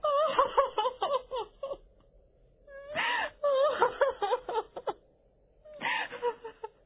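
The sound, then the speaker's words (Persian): Loud wailing sobs from a female character in an audio drama, breaking down in tears after someone leaves. Three bursts of crying with a wavering, quivering pitch, separated by short pauses. “شازده کوچولو که رفت، گل خانم شروع کرد به های های گریه کردن.”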